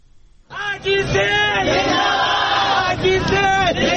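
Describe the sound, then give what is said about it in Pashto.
A crowd of transgender demonstrators in Karachi chants together at a protest praising the Sindh provincial police chief. The voices rise in together after a quiet start, then hold a loud, sustained chant with shouted, tonal phrases. “دا په کراچۍ کې نرخزیان دي چې د یوې مظاهرې په ترڅ کې د سند صوبې د پولیسو د مشر آی جی کلیمې معاملې قبله ستاینه کوي”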